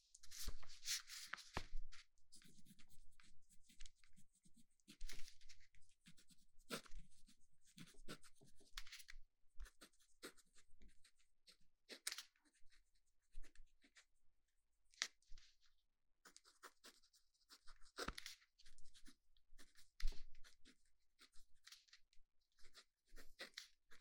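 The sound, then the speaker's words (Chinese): Pen writing on paper: many soft, scratchy strokes in irregular bursts separated by short pauses, faint throughout. “那我们做的第一个听力训练，就让你听听我写字的声音”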